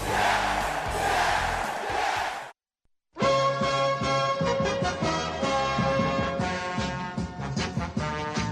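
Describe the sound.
An NHL hockey goal song plays loud and full over a roaring, cheering crowd. The music cuts out briefly into silence, then bursts back in with dense crowd noise and shouting.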